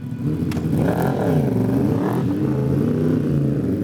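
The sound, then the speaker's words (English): Suzuki 1000cc superbike racing engine during a 2007 Superbike class race: a loud, continuous engine roar whose pitch rises and falls as the throttle is worked. “Very tight here in the Superbike 1000cc class for 2007. Team Suzuki rider there”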